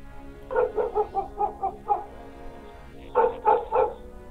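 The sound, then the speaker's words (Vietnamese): A dog barks from inside a house in the hills, reacting to a stranger: a quick, steady run of loud barks, a pause of about a second, then a short burst of a few more. “Nghe có tiếng người lạ tới, trong nhà vọng ra tiếng chó sủa, vang cả núi đồi, làm tôi giật cả mình.”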